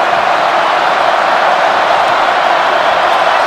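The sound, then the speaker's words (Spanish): A football crowd of Colombia supporters at a fan fest roars during a match, a dense, steady wall of cheering noise that holds level throughout without clear breaks. “0-0 estamos, y escuchen el público”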